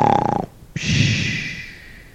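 A woman snores heavily on a holiday morning in an attic room behind closed shutters: a short buzzing, pulsing rasp, then a long breathy hiss that slowly fades. No talking.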